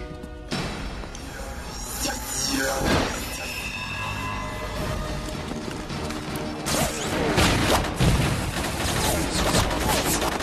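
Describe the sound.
Gunfire in a tunnel as people standing in the open are shot at. Scattered loud cracks and heavier bursts rise out of a dense, noisy background.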